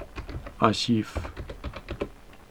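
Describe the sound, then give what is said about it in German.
Computer keyboard typing as a gzip compression command is entered: many quick keystrokes in an uneven rhythm, with a short voiced sound partway through. “Ich tippe ein gzip. Leerzeichen,”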